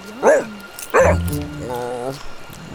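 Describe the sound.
A dog that has just eaten too fast gives two sharp, high yips, then a drawn-out whining whimper. The sounds are moderately loud, with no other sound over them.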